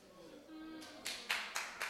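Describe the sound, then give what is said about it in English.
Several sharp, separate claps from listeners during a talk about Christ, arriving one after another in the second half after a brief stretch of voice. “Don't clap for me.”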